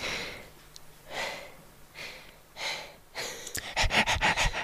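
A dog pants, first with a few slow, separate breaths and then a quick run of rapid, louder huffs toward the end.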